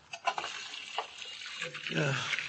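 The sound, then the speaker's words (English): Water running from a tap while someone washes their hands, a soft, steady splashing trickle with a few brief louder spatters. “Where'll I wash my hands, huh?”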